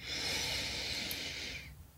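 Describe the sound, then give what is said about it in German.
A single deep inhale through the nose during a guided breathing exercise: a soft, steady, airy rush that lasts almost two seconds and then fades. It is quiet throughout, with no talk over it. “Wir können gerne nochmal gemeinsam einmal tief über die Nase einatmen”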